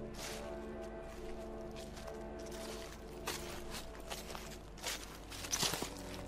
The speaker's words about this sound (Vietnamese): truyền đến âm thanh của một người đi bộ, soạt soạt trong đêm, dẫm lên nước nhép nhép.